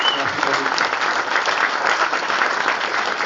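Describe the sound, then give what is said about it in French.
Sustained audience applause at a comics festival speech ceremony, a thick, even roar of many clapping hands that holds at a steady loudness throughout. “on peut au moins l'applaudir largement pour tout ce qu'il a fait.”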